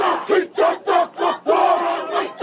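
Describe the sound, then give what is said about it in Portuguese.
Maori haka performed by tattooed, face-painted men and women at the World Indigenous Peoples Games in Palmas, Tocantins: loud chanted shouts in a run of short rhythmic bursts, then a longer sustained chant before a final burst. “Homens e mulheres fortes, com tatuagens tribais no corpo, pinturas no rosto, pisando forte no chão. Dança e cantoria bem diferentes.”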